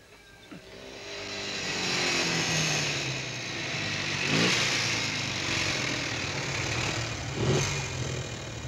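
An old German car's engine struggling to start: a rough, loud engine drone that swells and holds for several seconds, with a few brief surges.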